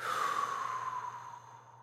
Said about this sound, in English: Once again, deep in breath, forced exhalation and dropping out all mental activity.